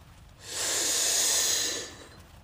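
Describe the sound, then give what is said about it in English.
A single long, deep breath taken during a guided breathing exercise, drawn steadily as a soft, airy rush that swells, holds level for about a second and then fades away, with no talk. “So taking a big deep breath in holding and then releasing. So taking that big deep breath in now.”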